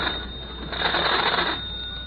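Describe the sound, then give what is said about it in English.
A telephone rings over the line while someone calls Mr. Fowler's house. It is a single thin, tinny ring burst, fairly loud and steady, with a faint hum underneath and no voices. “I wonder what's keeping Junior. He's been gone 20 minutes. I'd better phone.”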